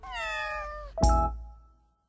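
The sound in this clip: A kitten meows: one drawn-out, slightly falling meow, then a louder, sharper cry that fades out quickly.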